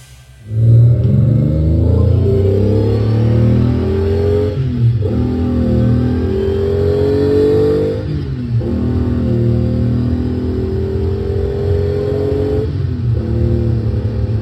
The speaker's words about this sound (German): Bei so einer Geräuschkulisse kann man davon ausgehen, dass es sich hier um keine gewöhnliche Autofahrt handelt. Hier wird nicht einfach von A nach B gefahren.